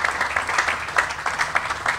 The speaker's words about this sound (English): Brendan Mahaffey, and we can give him a round of applause.